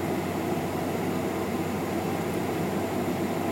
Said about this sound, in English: Because obviously we'll come to the stop at the end of the runway.